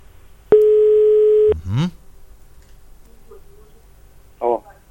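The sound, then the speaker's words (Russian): A telephone rings out as a call is dialed: one steady, single-pitched ringing tone lasts about a second, followed by brief chirping blips and a short burst near the end. “уже сейчас набирает нашего претендента на победу. Главное, чтобы он взял трубку вовремя”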